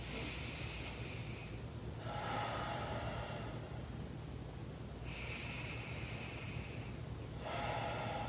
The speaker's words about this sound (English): can you take 3 deep breaths in for me?